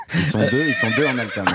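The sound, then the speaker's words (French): A horse neighs in one long, quavering whinny whose pitch wavers for over a second, and a voice speaks briefly alongside it. “C'est pas le son de son cheval, c'est un son de cheval. Je le reconnais, c'est un autre.”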